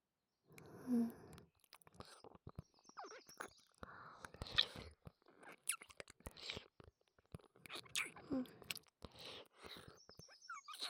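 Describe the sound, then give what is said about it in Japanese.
Eating sounds with swallowing, many soft close chews and wet mouth noises in an irregular rhythm, with occasional louder crunchy bites and gulps spread through the stretch. “いただきます。せっかくですから、ごっくんの音もお聞きください。”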